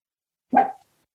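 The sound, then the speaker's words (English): A small dog gives a single short growl, one rough, throaty burst lasting about a third of a second, heard alone against silence. “And that was Cooper, if you can hear the little growl in the background.”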